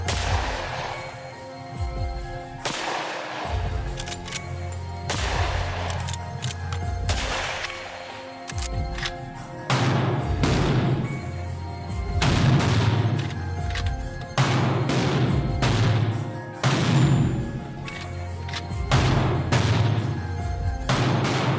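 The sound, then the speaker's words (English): Gunshots from a rifle firing Remington .35 caliber rounds, likely a Marlin 336, at an open-air range and then an indoor range: many loud, sharp reports at irregular intervals, with heavy low rumble between them. “and fired a Remington 35 caliber bullet. Here is what the gun sounds like being fired in an open air shooting range, then an indoor range.”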